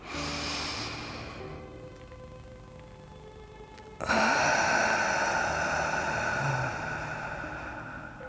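A deep inhalation during chakra meditation: a soft, breathy hiss that jumps sharply in loudness midway, then holds as a sustained, airy draw of breath before easing slightly.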